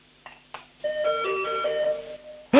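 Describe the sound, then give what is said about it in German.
A doorbell in Tyrol rings as an electronic chime playing a short melody of several bright notes. Two soft clicks come before it, and a sudden loud burst of noise cuts in at the end. “In Tirol werden jetzt Türglocken geläutet.”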